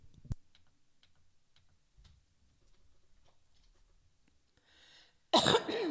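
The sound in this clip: A person coughs on wine caught in the throat: near silence with faint ticks, then one sudden loud, harsh cough burst at the very end.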